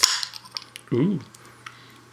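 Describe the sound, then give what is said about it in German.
A beer bottle cap pops off with a sharp crack, followed by faint light clinks and a short vocal sound, then quiet. “Ich mache mal ein Bier auf. Korrekt, machen wir auf.”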